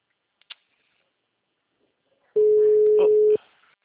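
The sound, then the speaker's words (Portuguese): A telephone busy signal sounds as one steady, single-pitched electronic tone lasting about a second, preceded by a couple of faint clicks in otherwise near silence. “Ele nem visualiza. O número está ocupado.”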